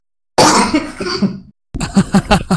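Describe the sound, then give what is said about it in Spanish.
A person with a bad cough coughing hard: one long, harsh, raspy burst, then after a short silence a quick series of about five shorter, punchy coughs. “Me estoy muriendo con la tos, ahí continúa tú.”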